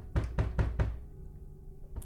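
Loud, urgent banging on a bedroom door as a father rouses his sleeping son: four quick, heavy knocks in a row, then one more after a pause.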